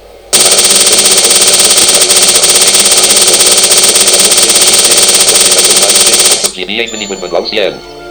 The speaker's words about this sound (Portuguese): Já arrebentou a bomba?